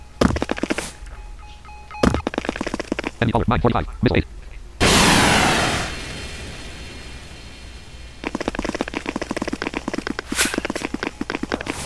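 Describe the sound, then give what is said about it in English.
A missile explodes in a video game as one loud, sudden blast with a noisy, roaring tail that decays over about a second. A person talks before and after it. “Wow, I leveled up before my missile went off.”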